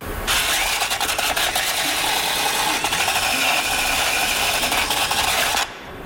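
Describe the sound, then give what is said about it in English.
A wheel rim is cleaned before retorquing: a dense, buzzing rasp like a power tool runs steadily and loudly for about five seconds, then cuts off abruptly. “That would be the sound of a wheel rim being cleaned before it's retorqued.”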